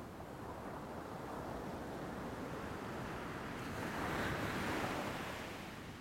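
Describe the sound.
Ocean waves wash onto a sandy beach with a continuous broad hiss of surf and foam, swelling louder near the end before easing, with some wind noise mixed in.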